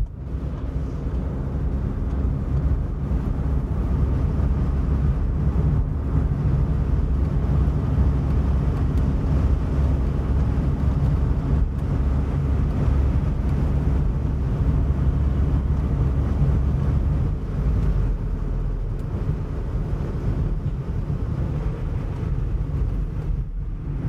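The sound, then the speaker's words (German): Steady driving rumble from a Volkswagen Golf car, a dense low roar with wind-like noise over it that holds at an even, loud level throughout, with no voices. “Ja, eine Minute für den Golf und für alle Golfs auf dieser Welt.”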